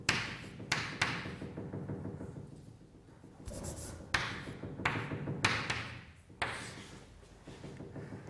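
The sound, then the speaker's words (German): Handwriting an equation: pen strokes scratch in short bursts separated by brief pauses, a dry, rustling sound with occasional light taps, alone with no talking. “oder ich schreibe es mal doch so, Gamma C”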